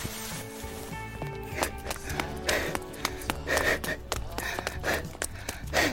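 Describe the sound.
People running away on foot from a restaurant owner without paying: quick, uneven footfalls with breathy gasps and a low steady tone underneath.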